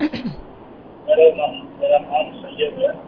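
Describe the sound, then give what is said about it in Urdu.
A caller's radio plays in the background of a telephone call, its thin, line-filtered sound coming through in several short bursts over a narrow phone connection. “آپ اگر سر یہ radio کی آواز کم کریں تو ہم سے بات ہو جائے گی آپ کی.”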